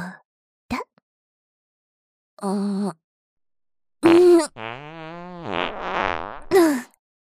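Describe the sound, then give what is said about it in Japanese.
Fart sounds, one caught in a cupped hand and released. A few separate blasts are heard: short buzzy bursts, then a longer wavering, tonal rasp and a brief final squeak, with silence in between. “はーい、握りっぺー。どう？臭いかしら？”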